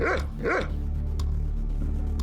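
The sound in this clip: A dog lets out two quick, harmonic barks over a steady, loud low rumble that continues underneath. A few fainter, scattered sounds follow the barks.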